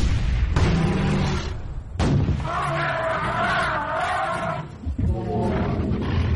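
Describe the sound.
A white elephant roars in resistance, a loud, strained bellow with a sustained tonal middle stretch, rising out of dense, rumbling noise over several seconds.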